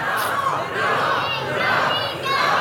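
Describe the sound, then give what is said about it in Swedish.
A crowd of voices shouts a hurrah for King Xerxes in several loud, repeated bursts, each rising and then dipping briefly before the next cheer. “Jag tycker att ni ska ge mig kung Xerxes faktiskt ett fyrfaldigt hurra för den här braiga idén jag kom på. Så ett fyrfaldigt leve för kung Xerxes. Han lever, hip hip hu.”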